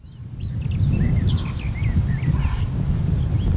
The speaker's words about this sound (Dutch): Kijk, daar zit een klein vogeltje op de tak.